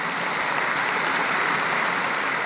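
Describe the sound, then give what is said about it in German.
Big, dense applause from an audience at a gathering in Hamburg after a candidate accepts an election; loud, steady clapping throughout with no talk. “Da der große Applaus, nachdem sie die Wahl angenommen hat.”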